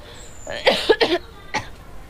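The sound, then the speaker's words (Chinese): Coughing caused by cigarette smoke: a quick cluster of short, harsh coughs, then one more cough after a brief pause, with no talking. “你不要抽了吧，娃呛的”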